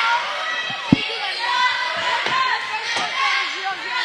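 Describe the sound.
A basketball is dribbled during a live game, giving a few dull thumps on the court beneath a man talking continuously.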